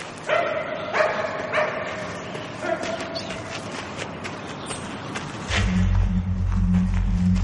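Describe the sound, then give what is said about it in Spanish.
Dog barking as it chases a thrown tennis ball into a building, a few sharp barks in the first seconds over a busy background, then a low steady rumble takes over toward the end. “El perro entra a buscarla.”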